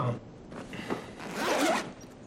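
A duffel bag zipper is pulled open: some brief fumbling rustle comes first, then one long, rasping zip rises and fades, with no talking.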